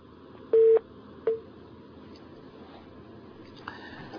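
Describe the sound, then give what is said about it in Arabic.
Telephone tones on a line after a call drops: two short electronic beeps early on, then a faint steady tone near the end over low line hiss. “انقطع الاتصال.”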